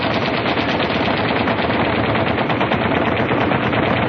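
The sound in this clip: Automatic gunfire from a Zurich 86 rifle in a shopping-center car park: one unbroken, rapid stream of shots that stays loud and even for about four seconds.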